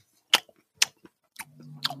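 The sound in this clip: Chewing of a marzipan praline with dark chocolate: four crisp, separate crunching bites, the last two overlapping a voice humming in enjoyment.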